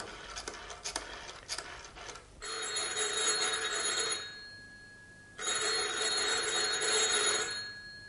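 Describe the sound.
A telephone rings twice, in two long buzzing bursts separated by a short pause and heard alone at a fairly low level, with some scraping clicks before the first ring.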